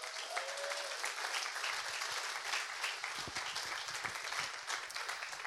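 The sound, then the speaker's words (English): An audience applauds to welcome a speaker to the front, a steady, even patter of many hands clapping for the whole stretch with no break. “Can we give Callum a warm welcome?”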